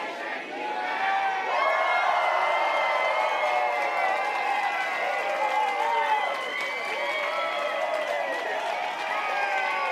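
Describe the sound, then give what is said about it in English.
A church audience at a Sunday service shouts together on a countdown, a dense wash of many voices that rises quickly and holds loud and steady for the whole stretch, with cheering mixed in. “It's like 4 words, and then you just shout. Okay, if everybody is ready, 3, 2, 1.”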